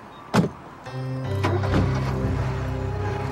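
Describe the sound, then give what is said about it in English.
A car door shuts with one sharp thunk as people get into a car, followed by a steady mechanical whirring hum that sets in and runs to the end. “They get into the car”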